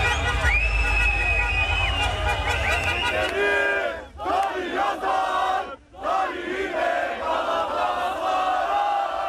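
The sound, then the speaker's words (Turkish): Galatasaray fans celebrate the club's 26th championship in a city square with loud massed chanting and singing of anthems. The roar of voices runs throughout, dipping briefly twice before surging back. “Yurdun dört bir yanındaki sarı kırmızılılar meydanlarda toplandı. Marşlar söylendi, meşaleler yakıldı.”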